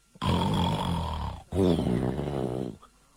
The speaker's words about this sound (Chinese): 那呼噜声还非常大